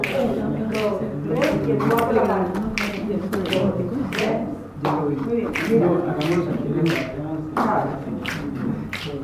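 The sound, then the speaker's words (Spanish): Finger snapping and hand clapping in a group music game, a repeating pattern of three snaps then a clap, crisp rhythmic strokes with voices chanting along. “Chasquido, chasquido, chasquido y palmas. Chasquido, chasquido, chasquido y palmas.”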